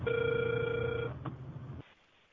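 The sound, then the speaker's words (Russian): A telephone ringing tone heard during a call attempt: one steady, buzzing tone of about a second, followed by a short stretch of faint line noise. “Продолжаю дозвон.”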